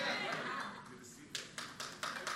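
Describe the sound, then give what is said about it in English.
A handful of scattered, sharp claps from an audience during a church sermon, quiet and separate, following a voice speaking in the first half. “I'm glad you're clapping for yourself.”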